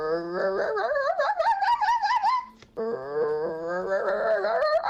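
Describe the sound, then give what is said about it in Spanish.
Fox calls: two long, high, whining wails with wavering pitch. The first lasts over two seconds, and after a short gap a second wail follows, loud and with no talk. “Ese es el zorro real.”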